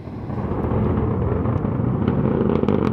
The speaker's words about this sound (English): our NPR colleague Julia Simon was in Southern California watching this SpaceX Falcon 9 rocket launch